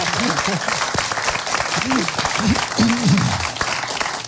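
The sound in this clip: Audience applause at a radio award ceremony: dense, steady clapping runs loud for the whole clip, with voices or calls rising briefly above it.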